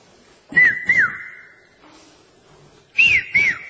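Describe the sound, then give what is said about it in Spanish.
A whistle blows in a comparison between an official whistle and an amateur one. Four short, shrill blasts with slightly bending pitch come in two pairs about two seconds apart, and a quieter steady tone lingers after the first pair. “Nosotros tenemos el oído desarrollado para establecer la diferencia entre el pito oficial y el pito aficionado.”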